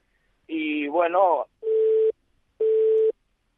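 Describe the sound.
Two evenly spaced electronic beeps of a telephone line tone after a dropped call, each a steady mid-pitched buzzy tone lasting about half a second, preceded by a short voiced burst.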